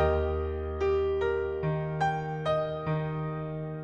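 Piano plays the first measure of a song intro: a held low E-flat bass beneath seven struck notes at an even, moderate pace, each ringing and decaying into the next.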